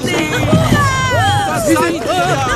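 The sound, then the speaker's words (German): Villagers joyfully greet a rowboat arriving at the village beach, a dense mix of overlapping excited voices and shouts over a constant crowd murmur. “Das Ruderboot erreicht nach ruhiger Überfahrt den Dorfstrand und wird von den Bewohnern freudig begrüßt.”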